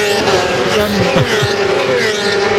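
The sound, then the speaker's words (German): Motorcycles roar past on the Hockenheimring race track during a motorcycle event. A dense, loud engine whine carries a few falling pitch sweeps as the bikes pass. “Und in dem Moment, wo es vorbeirauscht, spürt man förmlich die Gewalt der Motorräder. Das ist einfach faszinierend.”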